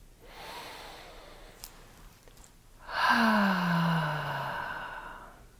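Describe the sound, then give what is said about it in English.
Deep relaxing breathing: a slow, soft inhale through the nose, then a louder, longer exhale that turns into a gentle voiced sigh and fades out, with no talking. “Let's start right off the bat with taking two nice deep breaths and relaxing our shoulders.”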